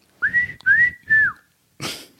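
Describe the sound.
A person whistling a short phrase of an old TV theme tune: three clear, sustained notes, the last one sliding down, followed by a soft breathy rustle.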